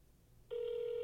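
Electronic ring of a telephone call being placed. After half a second of quiet it starts abruptly and holds one steady, loud tone to the end.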